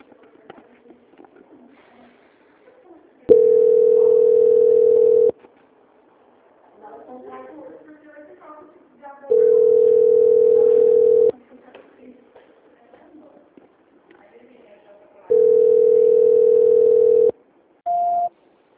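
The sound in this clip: Telephone line tones play during a call transfer: three steady, mid-pitched tones of about two seconds each, separated by gaps with faint sounds, then one short, higher beep at the end.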